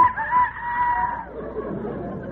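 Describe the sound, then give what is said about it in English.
A rooster crows once in the morning on a farm: one drawn-out, steady, harmonic call of about a second, which then gives way to a low, noisy rustle. “No, that's the rooster. It's morning.”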